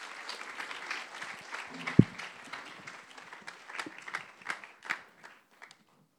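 Audience applause welcomes two guests onto a stage: a dense, steady patter of many hands clapping, with one sharp loud clap early on, then thinning into scattered claps toward the end.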